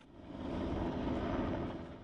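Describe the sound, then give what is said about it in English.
Media helicopters circle over the Sydney Opera House as protesters occupy one of its sails. Their engines make a steady, low, broad rumbling drone that swells slightly and then holds, with no talk. “Media helicopters circle as one of the sails of the Sydney Opera House is occupied by protesters.”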